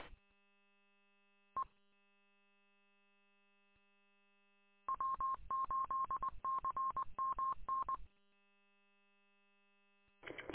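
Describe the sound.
Telephone being dialed: a steady low dial tone runs throughout, broken by a single keypad beep, then a quick run of many touch-tone beeps, and one more beep at the end.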